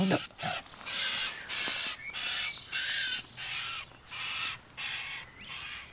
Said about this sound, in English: That's a starling with his mouth full. Yes, and the chicks just saw him